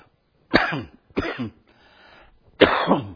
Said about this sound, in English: Got a little frog in my throat. I'm sorry about that.